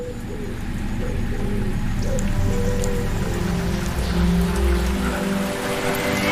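Heavy rain pours in a steady, dense hiss. It stays loud and nearly constant from start to finish.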